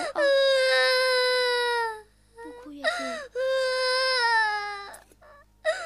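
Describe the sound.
A child cries in long, high, wailing bursts. Two sustained wails are broken by short catches and sobbing gasps, and a brief cry returns at the end.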